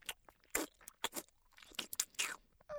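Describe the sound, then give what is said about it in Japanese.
Someone chews egg noisily, producing a quiet string of many irregular, wet, crunchy bursts in quick succession, with short pauses between them and no talking. “卵おいしい。くたくた音させるな。”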